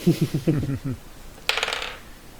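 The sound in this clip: A die clatters across a table during a tabletop role-playing game, just after a player swaps to a different die. A quick rattling burst follows a stretch of talking and then fades quietly.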